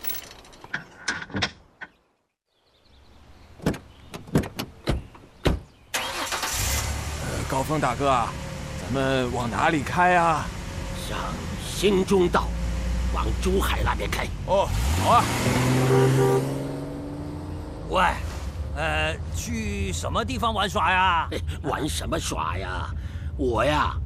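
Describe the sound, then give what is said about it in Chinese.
A few clicks and clunks of car doors, then a car engine starts and runs steadily as the car drives off, with people talking over the engine noise. “你去开车，我们跑一趟。 去哪里啊？ 哎呀，先上车再说。 好，上车，走了。”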